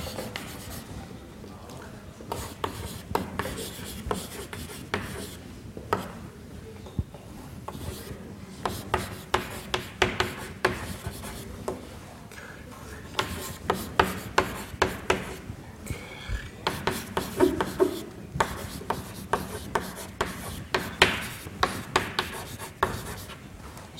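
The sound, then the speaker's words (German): Writing a sentence on a board during a lecture produces many scratchy rubbing strokes, irregular and fairly faint, with brief pauses between bursts of marks. “Ich schreibe hier jetzt einen Satz und ich gehe davon aus, keiner von euch kann diesen Satz verstehen, beziehungsweise lesen.”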